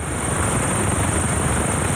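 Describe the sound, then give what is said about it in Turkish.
A helicopter flies over a disaster area with collapsed bridges and damaged roads, producing a steady, loud rotor and engine drone. The drone stays unbroken throughout and no voices are heard. “Bazı bölgelere helikopterlerle ulaşılmaya çalışılıyor.”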